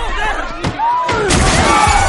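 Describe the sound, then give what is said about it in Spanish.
A table is smashed during a fight in a dramatic film scene, heard as a few heavy crashing thuds and breaking impacts against a tonal backdrop. “Rompen una mesa.”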